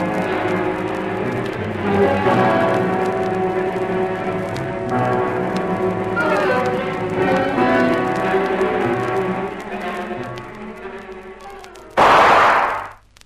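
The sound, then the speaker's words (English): A gunshot fired nearby in a swamp: a single loud, sharp blast near the end, cutting in abruptly over a steady sustained background. “Uh-oh, someone's trigger-happy. Yes, and not far enough away for comfort. Faster, Lizzie, or they'll be firing at us instead of shadows.”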